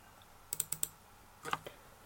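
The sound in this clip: Faint clicks of typing on a computer keyboard, two short bursts of a few keystrokes each and one last click at the end, over a low steady hiss.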